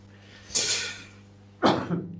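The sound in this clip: A human sneeze comes out as two sharp, breathy bursts about a second apart. The second burst is louder and rougher, and steady low hum sits underneath.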